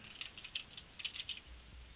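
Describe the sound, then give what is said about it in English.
Cards being shuffled for a psychic card reading, a soft, dry patter. Several faint, quick riffling bursts come in loose succession, with no talk. “let me go ahead and shuffle the cards in front of me, and let's see what the cards have to say to you, okay? Okay, thank you. No problem. So let me shuffle them a couple times here.”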